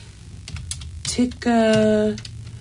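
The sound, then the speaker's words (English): Typing on a computer keyboard, a few quick light clicks followed by a person speaking. “Let me just, I just have to type it up.”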